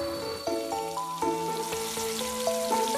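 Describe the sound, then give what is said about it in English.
Food sizzling as it cooks, a steady hissing crackle running under clear, bright musical notes that ring out at a regular pace. “Hey, mommy, my wife is cooking something delicious.”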